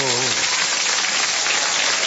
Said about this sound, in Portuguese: Maravilha, está aí os nossos aplausos.